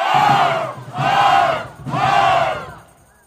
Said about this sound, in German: Lasset uns ihn, wie es im Mittelalter üblich ward, mit einem dreifachen Hoch begrüßen.